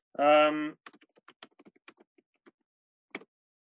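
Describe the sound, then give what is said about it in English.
Typing on a computer keyboard: after a brief hummed vocal sound, scattered light clicks tap out in an irregular rhythm, then pause before one final keystroke. “I will type it into the chat in case you're interested in what I just said.”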